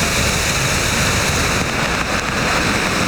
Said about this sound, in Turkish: Akşam saatlerinde bastıran yağmur İstanbul'da birçok ilçede etkili oldu. Yolları tam anlamıyla sel aldı.